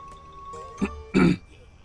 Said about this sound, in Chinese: 哎，不许随地吐痰，这样多容易传播疾病呀，而且啊也不文明。